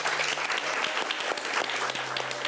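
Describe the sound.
Audience applause at the Royal Institution at the close of a live science event: dense, even clapping throughout, with a faint low hum beneath.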